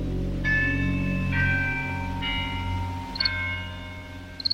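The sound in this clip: A bell strikes ten o'clock at night. Four evenly spaced strikes each ring out with bright, sustained overtones that linger into the next, over a steady low rumbling background.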